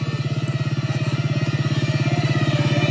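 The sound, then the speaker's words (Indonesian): Motorcycle engine revving as a sound effect in a spoken story, a loud, steady, rapid throbbing pulse with a low, gritty tone that holds on its own without any talk. “Buru-buru aku menancap gas motorku.”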